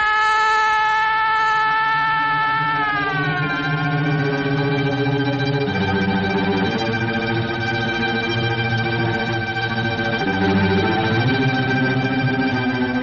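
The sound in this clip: Police siren wailing loudly and continuously, its steady high tones shifting and dipping in pitch early on, while a low rumbling mix shifts underneath through the whole stretch.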